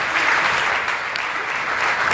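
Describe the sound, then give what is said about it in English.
A church audience claps in praise during a morning service: dense, steady hand-clap applause, many overlapping claps at an even loudness, with no voices. “So give the Lord Jesus a great hand clap of praise this morning, amen?”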